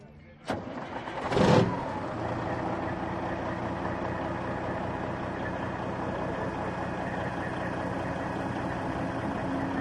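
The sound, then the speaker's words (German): A vintage Kenworth truck from the USA, with a 500 hp, 12.7-litre engine, starts at a truck show. A sharp burst as the engine catches gives way to a steady, low, rumbling idle. “Was haben wir denn jetzt hier hinter uns stehen? Das ist ein Kenworth aus den USA, hat 500 PS. 12,7 Liter und Oldtimer,”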